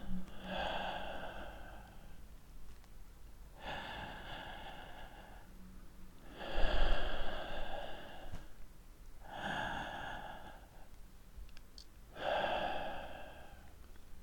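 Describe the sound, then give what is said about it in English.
Slow breathing in and out, five long breathy bursts at an even, unhurried pace with quiet gaps between them. No talking is heard. “Just breathe, baby girl. Slow breaths in and out.”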